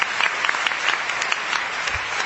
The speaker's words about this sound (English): So please give them a round of applause for being here to support us as we talk about these issues.